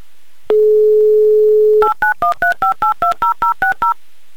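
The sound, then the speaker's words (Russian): Touch-tone dialing of a call to Krasnoyarsk: a steady dial tone holds for over a second, then gives way to a quick, even run of many crisp, loud two-note beeps as the number is keyed in. “Да, давайте звонить в Красноярск. Будем звонить Александру прямо сейчас.”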